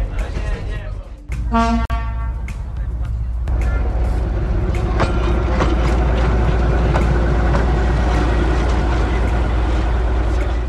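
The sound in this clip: A train arrives at the last station on a passenger rail line: a short horn toot near the start, then a steady low rumble from the moving train. Voices talk over it throughout.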